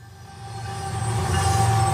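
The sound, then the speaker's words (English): A freight train of crude oil tanker cars rolls along the rails with a steady low rumble and rattling wheel noise that grows louder over two seconds. “Millions of gallons of crude oil move around the country every day on trains like this one.”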